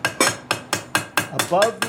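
A blacksmith's hammer taps metal on an anvil in a large wooden barn, striking in a quick, steady series of bright, ringing blows.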